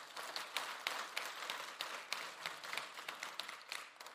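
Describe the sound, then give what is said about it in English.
Church audience applauding: a sustained, dense round of clapping that stays steady for about four seconds, quite faint overall. “there's a beautiful applause. You just clapped like I told you the coffee's free today.”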